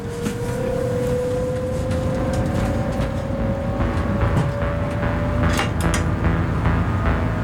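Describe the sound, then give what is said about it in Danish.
A train pulls out of Valby station toward Frederikssund with a steady low rumble and a motor whine that slowly rises in pitch as it gathers speed. “Og så skulle toget gerne køre. Og det gør det også.”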